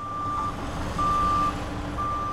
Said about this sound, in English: Which will turn a construction site from sounding like this